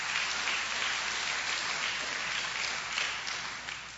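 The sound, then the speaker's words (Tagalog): A church audience applauds in praise of the Lord: a steady, dense wash of clapping that fills the whole moment and eases off slightly at the end. “Palakpakan nga natin ang ating Panginoon.”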